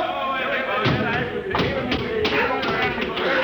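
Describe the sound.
A person drops about six feet onto a hatch, making dull thumps and taps that stand out briefly from dense, steady background noise.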